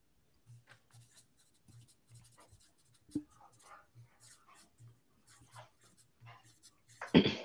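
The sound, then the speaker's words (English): Pens scratching on paper as people write answers in a drawing and guessing game, with short intermittent strokes, a soft tap midway and a louder rustle at the end. “Okay, everyone done writing?”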